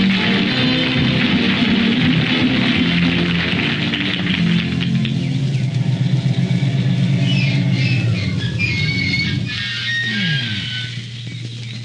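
A car engine hums and rumbles steadily as it drives along a forest road, then a high squeal from its worn, faulty brakes cuts in near the end as it slows and settles to a lower hum.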